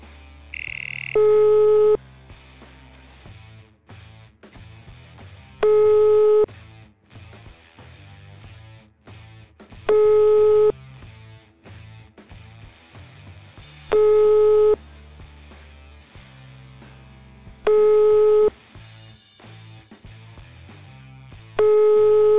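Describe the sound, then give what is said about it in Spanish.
Repeating telephone tone while a call is being placed: six long, identical beeps at regular intervals of about four seconds, sounding over steady background music. “peguémosle una llamadita a Narco a ver si nos contesta”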